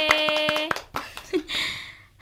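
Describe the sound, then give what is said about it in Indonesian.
Hand claps among bright, music-like tones, a few quick sharp strikes in a short rhythmic run, followed by fainter noisy sounds. “Baik, kalau begitu tepuk tangan untuk kita semua. Hore!”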